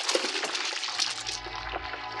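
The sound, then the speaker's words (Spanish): Splash of a wrestler plunging into a dark pond, staged as a dramatic sound effect: a loud, sustained rush of crashing, spattering water that fills the whole stretch, with a deep rumble swelling in the second half. “Jato se ha arrojado sobre Calimán, pero este, previendo el artero ataque, se agacha más para eludirlo. El luchador salta por encima del hombre increíble y cae a las aguas del estanque.”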